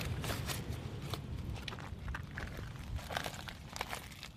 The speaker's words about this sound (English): At the end, lots of dying or dead bull kelp, and that is sounding a bit like it's quite crispy and a bit leathery.